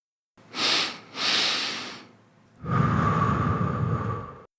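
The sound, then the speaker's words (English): A person does a physiological sigh: two sniffing inhales through the nose, the second slightly longer, then one long, steady, breathy exhale, with no speech. “a research-based practice I've found really helpful called the physiological sigh. It's just a double inhale through your nose, followed by a long exhale, like this.”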